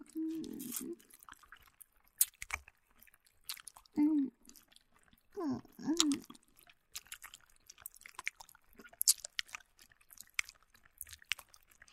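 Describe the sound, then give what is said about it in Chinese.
Faint, wet mouth sounds of sucking a lollipop: soft smacks, slurps and clicks scattered irregularly, with a few brief hummed vocal sounds in between. “我嘴里含着棒棒糖的声音”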